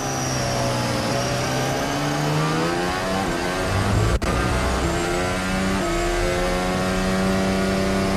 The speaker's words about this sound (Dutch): Klinkt alsof die cilinder mist, hè? Niet hoog in de toeren ook.